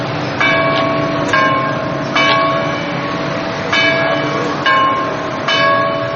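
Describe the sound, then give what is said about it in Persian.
Church bells tolling in a series of clear, resonant strikes at a steady, unhurried pace, each ringing on and overlapping the next, above a constant low background rumble. “زنگ گلبانگ انقلاب در مدارس و همزمان با آن ناقوس کلیساها”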